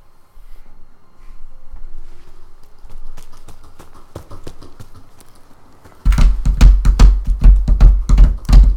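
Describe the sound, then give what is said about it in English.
Galloping horse hooves as a sound effect for a horse at full gallop: quiet scattered taps at first, then a loud, fast, steady run of heavy hoof beats. “And I suppose we could just use that. She's going to be going at a full gallop.”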